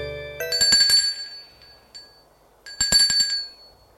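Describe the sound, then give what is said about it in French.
A bell rung at the gate of a house: two bright metallic rings with a sustained high tone, separated by a pause of under two seconds. “demi-heure plus tard, l'on sonne au portail.”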